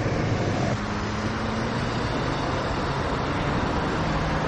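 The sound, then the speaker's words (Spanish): A car engine roars as the vehicle speeds off in a drama film scene, a steady, loud rumble with a low hum throughout. “arranca el vehículo y se marcha a toda velocidad. Charlie le observa desesperado mientras el vehículo se aleja del lugar.”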